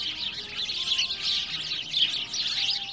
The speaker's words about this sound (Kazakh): Ол орталықтағы зоо дүкенінен торғай тоты сатып әкеліпті.